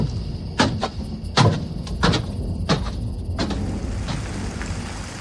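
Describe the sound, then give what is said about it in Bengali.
Moderate rain falls outside, a steady hiss running throughout, broken by several sharp clatters and knocks scattered across the first half. “বাইরে বৃষ্টি শুরু হয়েছে মাঝারি ভাবে”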